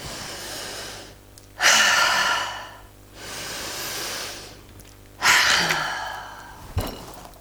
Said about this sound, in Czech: Můžeme se nadechnout třikrát.